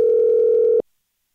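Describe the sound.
Telephone dial tone while calling a listener: a steady, single-pitched hum holds for under a second, then cuts off abruptly into silence.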